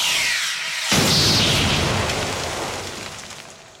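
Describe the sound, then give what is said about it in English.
Phaser fire from Star Trek: The Next Generation: a harsh, hissing energy blast bursts in just before one second, then holds and slowly fades away on its own. “Because on his way back, they're testing to see if their phasers work”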